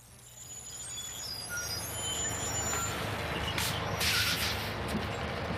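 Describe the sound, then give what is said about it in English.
A bus pulls up with its air brakes: a low engine rumble runs throughout, with loud bursts of air-brake hiss near the end. “Is this bus going to Riverdale? Yep, I'm headed that way.”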